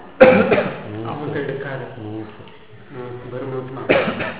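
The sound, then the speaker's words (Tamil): A person coughs, one harsh burst at the start and another near the end, with a voice speaking in between. “அப்பனு இருமலை. இருமலுக்கு உங்க நாயத்துல சொல்லுவீங்க?”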